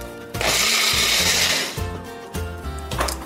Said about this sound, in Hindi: अब इसको अच्छे से ब्लेंड कर लेंगे